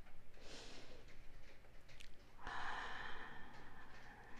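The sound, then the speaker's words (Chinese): A deep breath taken during guided relaxation: a quiet, airy rush of air that swells about halfway through and holds steady until the end. “我们再一次呼吸，”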